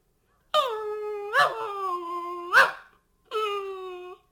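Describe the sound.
A puppy whines and howls in high, drawn-out cries that fall in pitch, with a long run of whimpering followed by one more cry after a short pause.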